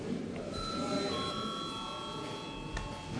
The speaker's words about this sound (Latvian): Lūdzu zvanu.